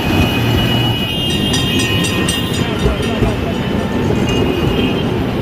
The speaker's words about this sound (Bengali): ট্রামটা মোড় ঘুরে আমার চোখের ওপর দিয়ে ঘটর ঘটর করতে করতে বেরিয়ে গেল